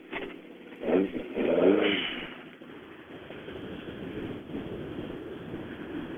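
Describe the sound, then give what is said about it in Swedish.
A yellow and black Saab car approaches with a fuel fault that leaves it running poorly. Its engine noise swells to a loud peak in the first two seconds, then settles into a steady, lower rumble. “Och kan det vara en Saab där ute som kommer?”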